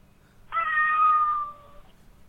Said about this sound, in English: Is that a cat? Yeah, that is a cat. Our first feline caller.